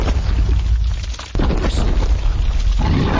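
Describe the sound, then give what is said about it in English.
A rock beast cracks and crumbles into broken stones in a fantasy role-playing game: a heavy, sustained low rumbling crash with one sharp crack partway through, then more grinding rumble. “With a final crack, the rock beast crumbles at your feet. Eesh. You advance past the heap of now broken stones.”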